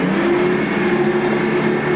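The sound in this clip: A yacht's engine is throttled up as the boat surges through the water, giving a loud, steady motor drone with an even low hum that holds throughout, with no voices.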